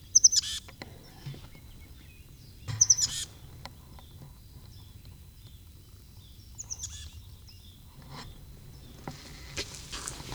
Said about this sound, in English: Bird flew into the barn.